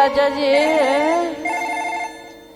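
A telephone ringing as a call is placed: a loud melodic ringtone with a wavering pitch, followed by a second, steadier tonal phrase that fades slightly toward the end.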